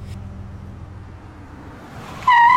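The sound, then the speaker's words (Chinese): A car's emergency braking brings a sudden, loud, high-pitched tyre screech that bursts in near the end after a low, steady engine rumble. “吱的一声，刺耳的急刹车霎时响起”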